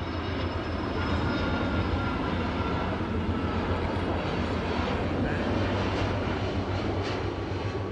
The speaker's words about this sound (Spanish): los testigos se percatan de la presencia de un avión comercial en las cercanías, el cual produce un gran ruido, mientras parece despegar de algún aeropuerto cercano.